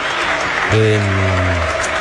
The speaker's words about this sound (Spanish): Minuto de aplauso